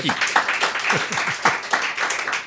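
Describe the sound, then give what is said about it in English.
Applause for a guest who passed a Kung Fu Christmas quiz: dense clapping that runs the whole time at a steady loudness, with a few falling tonal swoops woven through it. “Big round of applause”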